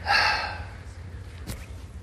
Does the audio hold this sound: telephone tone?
no